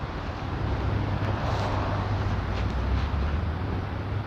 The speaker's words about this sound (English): But the wind, God, the wind. It's at my back at the moment.